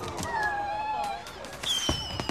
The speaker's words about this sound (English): Fireworks explode above the ship.